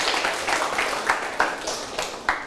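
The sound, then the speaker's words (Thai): Scattered applause from a classroom of students clapping for a classmate. The clapping is moderate and uneven, with a few sharper individual claps standing out. “เก่งมากเลยครับปรบมือให้เพื่อนหน่อยครับ”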